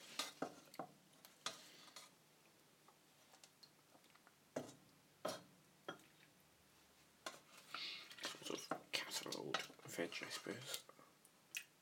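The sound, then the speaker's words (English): Spoon scraping and clinking as the main contents of a dish are spooned out, a run of irregular sharp clicks and scrapes that grows busier and denser toward the end. “We'll just spoon out some of the main contents there. Which are probably going to go everywhere.”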